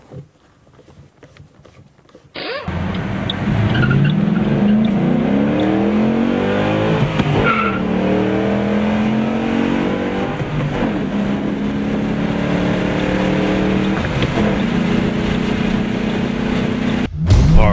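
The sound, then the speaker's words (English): A car's engine on a test drive after drive shaft and short shifter work, starting abruptly after a brief quiet moment. It becomes a loud, steady drone with harmonics that rise and fall as the car accelerates through gear changes. “Finally, put the boot back on and take it out for a test drive.”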